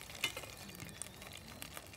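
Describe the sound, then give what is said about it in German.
Butter spattering in a pot with carrots: a faint, continuous crackling sizzle dotted with a few sharper pops, heard alone without voices. “Guck mal, hier fängt die Butter ein bisschen an zu spritzen.”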